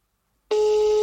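Telephone tone while placing a call: after a brief silence, a steady, mid-pitched electronic tone starts abruptly and holds at an even loudness.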